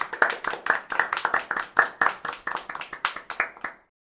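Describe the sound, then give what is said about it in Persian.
A group clapping for themselves in brisk, fairly even applause, many sharp claps in a steady rhythm before stopping abruptly. “اول یه دست برای خودتون بزنیم”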